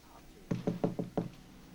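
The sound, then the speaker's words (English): Five quick knocks sound on a hotel room door in an irregular rhythm. The raps are firm and hollow against a quiet background. “Frank nods to Dalgetty, who knocks.”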